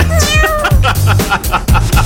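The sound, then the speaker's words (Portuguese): Kitten meowing in a thin, weak, malnourished-sounding voice, giving several high, wavering meows in quick succession. “Ah, parecendo que gatinho... desnutrido, né?”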